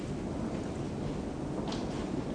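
Heavy rain pours down as a dense, steady roar and hiss that holds at an even level throughout, with no voices.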